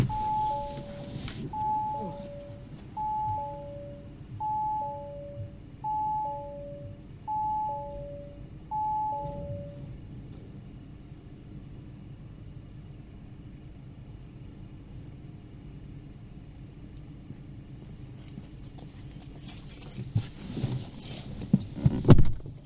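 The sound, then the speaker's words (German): Keys jangle as a garage is opened. A two-note electronic chime repeats several times over a low rumble for the first ten seconds, then a louder clatter comes near the end. “Ich muss eben die Garage aufmachen. Moment bitte.”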